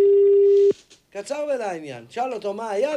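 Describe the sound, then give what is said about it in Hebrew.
A telephone tone plays while someone is calling a person: a steady, mid-pitched hum that stops after less than a second. Talking follows right after it. “בוא נחייג אליו, שידור. הוא ידע שאני מחייג אליו?”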